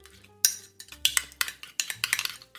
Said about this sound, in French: Donc, je mets une pincée de sel. Pas trop, mais juste assez. Je mélange le tout.